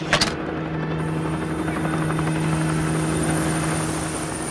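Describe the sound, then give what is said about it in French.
A red civil-defence helicopter drones over the Furiani sports ground during a stadium disaster rescue. The rotor and engine make a loud, steady whir with a low hum, after a brief knock at the start. “Dans le ciel au-dessus de Furiani, des hélicoptères rouges de la sécurité civile se rapprochent et se posent au centre du terrain. Puis ils redécollent, emmenant des blessés.”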